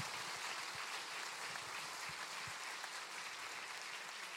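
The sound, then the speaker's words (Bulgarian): Audience applause for a church choir at an Easter service: dense clapping from many hands, sustained and even throughout, fairly faint. “Аз желая още веднъж да поздравим нашите хористи. Аплодирайте ги, моля ви се.”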